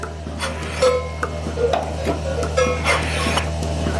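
A milking machine runs while attached to a cow, ticking in a steady rhythm of sharp clicks over a constant low hum.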